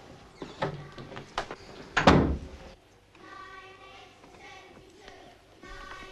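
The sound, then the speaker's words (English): A classroom door is opened carefully: a few soft clicks and knocks, then a louder scraping thump partway through, followed by faint murmuring voices. “carefully opens the door to his classroom and creeps in, motioning for the others to keep quiet.”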